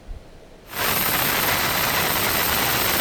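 A helicopter lowering soldiers onto the deck of a tanker at sea. A loud, steady roaring wash of engine and rotor noise cuts in abruptly after a short quiet moment and holds unchanged.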